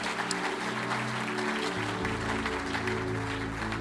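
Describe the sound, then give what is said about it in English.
An audience applauds in a dense, steady wash of clapping that carries evenly from start to finish. “Let's put our hands together and congratulate those 4 or 5 people.”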